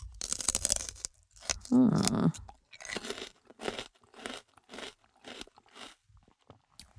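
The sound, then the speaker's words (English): Celery being bitten and chewed, loud crisp crunches: a dense burst at first, then many short, rhythmic chewing crunches separated by brief pauses. “Celery. Delicious. Not really nutritious”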